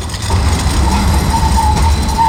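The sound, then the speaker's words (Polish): A tram runs past on a worn stretch of track along Dunajewskiego Street in Kraków. A steady low rumble carries a thin, high wheel squeal that keeps coming back across the pass. “Tutaj zdecydowanie te tramwaje jeżdżą najgłośniej.”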